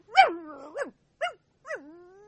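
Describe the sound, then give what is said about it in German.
A small dog barks and growls. A sharp bark slides into a rough growl, followed by three shorter, higher yapping barks, and the last one trails off in a thin, drawn-out tail. “Statt aufzuhören zu bellen, fletschte Chip die Zähne aus, Eifersucht offenbar.”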